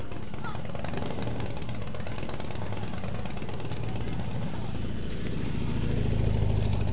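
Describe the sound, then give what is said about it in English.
A BMW motorcycle with a sidecar runs with its engine going, a steady, coarse, throbbing rumble that holds an even level and swells slightly louder toward the end. “BMW sidecar.”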